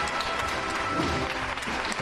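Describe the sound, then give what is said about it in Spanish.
A street crowd applauds and gives an ovation during a nighttime religious procession with costaleros in a city street: sustained, dense clapping holds steady throughout at a moderate level. “Y se lleva la primera ovación de la calle Feria”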